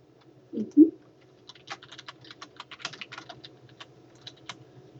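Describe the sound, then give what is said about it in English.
Typing on a computer keyboard: many light, quick clicks in irregular runs over a low steady hum, preceded by two soft thuds. “Let me see, did I type that right?”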